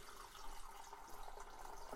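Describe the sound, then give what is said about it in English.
Fresh water pouring from a Brita filter, a faint, steady trickling stream with small splashy textures running throughout. “So now what we need to do is I will put some fresh water from, I use water from filter”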